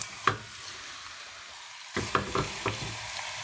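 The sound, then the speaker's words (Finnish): Pork shank slices sizzle as they are laid into a pot of softened onions: a soft, steady frying hiss broken by a few sharp clatters and knocks. “ja nyt ota potkakiekot ja ladon ne tonne pataan. Ne ei mahdu tietenkään kaikki vierekkäin, vaan ne voi heittää sinne päällekkäin.”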